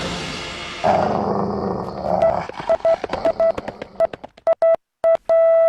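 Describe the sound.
A dog growls: a low, rumbling, harmonic snarl lasts about a second and a half, then gives way to a string of short, sharp electronic beeps and tones. No talk.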